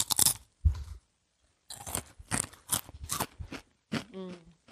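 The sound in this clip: Crunching of potato chips being bitten and chewed during a blindfolded chip tasting. After a brief opening noise and a pause comes a dense run of loud, crisp crunches, followed by a short vocal sound near the end.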